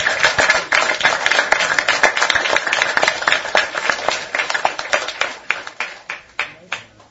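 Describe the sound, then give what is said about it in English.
Applause from an audience rising in a standing ovation, loud dense hand clapping that thins into scattered, slower individual claps before fading out near the end. “Well, that's a round of applause.”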